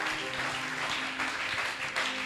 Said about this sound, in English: Clap your two hands for them.